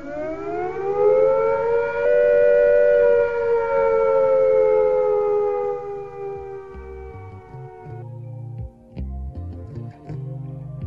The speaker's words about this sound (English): If attack is imminent, you will hear the attack sound like this.